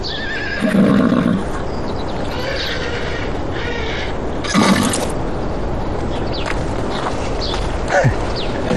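A horse whinnies in a few loud, shrill bursts over a steady, noisy background.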